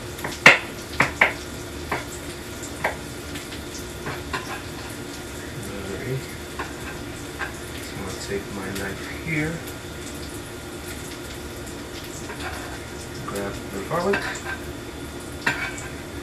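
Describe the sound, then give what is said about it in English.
Garlic and onions fry in oil in a pan with a steady, moderate sizzle; a few sharp clinks of a utensil against the pan come near the start. “And then we're going to just throw those pieces of garlic right in. And once we throw the pieces of garlic in, they should start to cook right away.”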